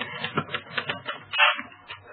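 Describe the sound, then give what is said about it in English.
Typewriter keys clacking as an editorial is typed, a quick, fairly regular run of keystrikes that pauses briefly and then resumes, heard faintly and without talk. “Oh, I don't know why I can't read these things after they come out of the typewriter.”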